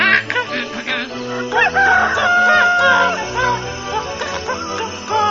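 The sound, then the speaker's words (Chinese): A rooster crows in a village at sunrise, loud and high-pitched, with several drawn-out, wavering calls layered over a dense, busy background. “每天早上太阳公公出来的时候，村子里的人都会听到大公鸡在咕咕咕地唱歌哦。大公鸡的声音高亢又响亮”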